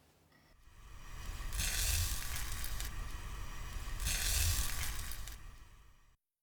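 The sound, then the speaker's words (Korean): Gentle sizzling of a little beaten egg poured into a cooled pot. The soft hiss swells twice over a low rumble, with no talk. “냄비에다달걀을조금붓고온도를체크해봅시다소리를잘들어보세요”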